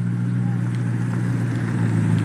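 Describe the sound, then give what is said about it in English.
Engine drone from a brand-new BMW M8 Competition car being driven out, a steady low rumble at constant loudness with no clear revving throughout. “Driving out in a brand new M8 BMW M8 competition. Listen to this thing.”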